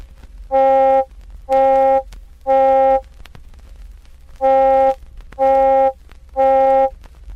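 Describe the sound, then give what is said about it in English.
Electronic middle C tone with its mid-range overtones emphasized, heard as six steady, buzzy, horn-like bursts of equal length, evenly spaced in two groups of three with a longer gap between them, alone over faint hiss. “But if we emphasize the overtones in the region of 500 and 800 cycles per second, it sounds like this.”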